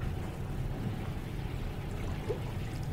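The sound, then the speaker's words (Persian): Sharbat, a sweet drink, being poured in a steady, unbroken liquid stream, a low trickling wash that holds an even level throughout, with no voices. “میخوری شربت؟ بریز ببینم”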